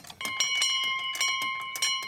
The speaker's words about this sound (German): Und wie oft muss die Glocke erklingen, wenn man jetzt rumfragen würde, welche Familie aus Schwabhausen, mag es ja auch Zugrost sein, neue Kriegsopfer zu beklagen hätte?